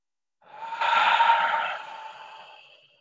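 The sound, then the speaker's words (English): One long, soft breath exhaled through the mouth during a deep breathing exercise of nose inhales and mouth exhales. The airy rush swells, then slowly fades, alone with no talk. “let's begin with the first inhale, deep inhale through the nose. And exhale out the mouth. Inhale.”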